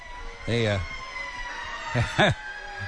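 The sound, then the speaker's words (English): A fire and rescue truck siren sounds faintly as the engine drives along a street beside a high school football field during pre-game warm-up, with a few short wailing bursts. “If you hear the sirens, no, nothing happening on the field. Just blowing the siren as they go by as the warm-up clock expires.”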